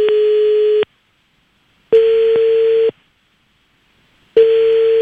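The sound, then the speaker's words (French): Ringback tone of an outgoing phone call: three steady single-pitch beeps, each lasting under a second and separated by about a second of silence, with the last one cut off. “Allez hop, c'est parti, on fait sonner.”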